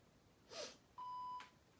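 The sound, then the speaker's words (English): An electronic pen beeps after its top button is held. A brief, soft, noisy burst comes first, then a single steady, mid-pitched electronic beep lasts under half a second before stopping. “it just beeped. Apparently, I've been told by sighted people that a light goes on as well. Who cares? I'm blind. I can't see the light. But I can hear the beep.”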